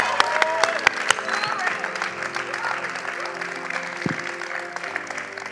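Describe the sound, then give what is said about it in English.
Audience applause, a dense wash of clapping that opens with a few sharper individual claps and then settles into steady, slightly fading applause. “Let's make some noise for Miss Christina.”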